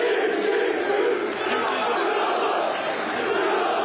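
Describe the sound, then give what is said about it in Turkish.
Crowd of football fans chanting for Mohamed Salah at an airport welcome ceremony, a steady, dense roar of many voices that holds without a break. “Salah'ın üçlü çektirdiği taraftarlar "Ya Allah, Bismillah, Muhammed Salah" tezahüratlarında bulundu.”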